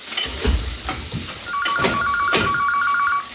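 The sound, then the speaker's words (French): Electronic telephone ringtone starting partway through, a rapid repeating pulsed two-tone pattern that rings steadily over faint kitchen cooking noise. “Lucien, tu peux répondre au téléphone, s'il te plaît?”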